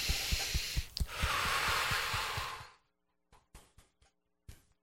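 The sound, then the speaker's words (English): One long, deep breath taken during an Emotional Freedom Technique session, a sustained breathy rush lasting almost three seconds. Quiet follows, broken by a few faint soft clicks. “Big deep breath.”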